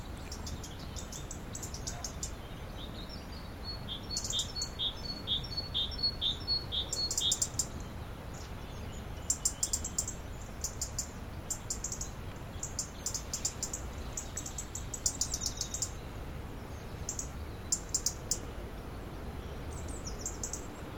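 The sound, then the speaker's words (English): Several wrens sing against each other in rapid, high-pitched trilling bursts that come and go throughout, fairly faint above a constant low background rumble. “Wrens having a wren off.”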